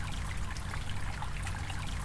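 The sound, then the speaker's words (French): A small stream flows past a grassy bank outdoors, giving a faint, steady trickle and wash of water with no voices. “Une rivière passe sur le côté, c'est le Dévora.”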